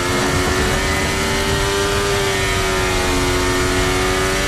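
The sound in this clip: Ferrari Formula 1 car engine on a qualifying lap, a loud, sustained, high-pitched mechanical howl with steady layered harmonics that barely shift in pitch, heard alone without talk.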